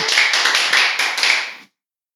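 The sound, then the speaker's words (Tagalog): An audience claps hands in praise of the Lord during a Tagalog sermon: a dense, loud burst of applause with slight pulsing that stops abruptly after under two seconds. “Palakpakan natin ang Panginoon doon.”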